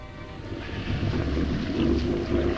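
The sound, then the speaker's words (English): A boat motor rumbles low and steady as it steers out of a marina, with a muffled wash of wind noise over it. “Hollister steering his boat out of the marina.”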